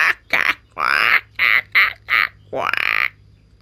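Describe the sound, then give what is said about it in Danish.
A hooded crow on a roof gives several harsh, raspy, cawing calls in quick succession, each a loud grating burst, the last one drawn out longer, with no voices. “Og så hører mormor en gråkrave, som sidder op på taget og griner.”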